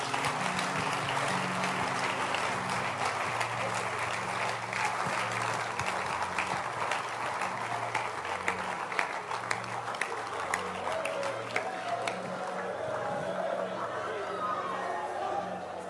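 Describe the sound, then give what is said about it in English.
A church audience claps its hands in dense, continuous applause over sustained low tones, with voices chattering and talking through it. “Clap your hands for him.”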